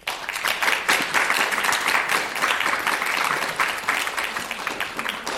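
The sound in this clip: Audience applause welcoming a speaker at a library program, a dense, continuous wash of clapping that stays loud and steady throughout.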